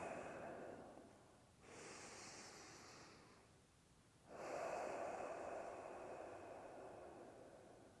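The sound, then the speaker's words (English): Slow, deep breathing during a guided qigong exercise: long, airy inhales and exhales of soft rushing breath, separated by brief quiet pauses. Each breath is steady and unhurried, with no talking. “Let's start first with two deep breaths.”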